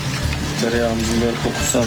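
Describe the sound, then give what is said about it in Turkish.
Butter made from yogurt sizzles and crackles in a pan as a dish is garnished, a steady bright frying hiss running through the whole moment beneath a person talking. “Tereyağımızın kokusu çok hoş geliyor. Gerçekten yoğurt tereyağı şimdi, çıtır çıtır çıtır kaynıyor.”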